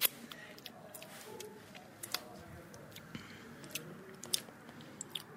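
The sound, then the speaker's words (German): Faint mouth and chewing sounds as someone tastes white fish protein powder, a flour-like powder: irregular small clicks and soft crunchy smacks scattered over a quiet background hiss. “Es sieht aus wie Mehl. Es ist ein Proteinpulver. Kann ich es probieren?”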